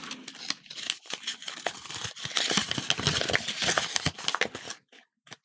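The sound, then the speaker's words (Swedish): Paper lottery slips dropped into a golden trophy cup and shuffled make a soft, continuous crinkling and rustling with many small crackles, ending in a few scattered faint clicks. “Jag lägger ner lotterna i den gyllene pokalen och blandar om.”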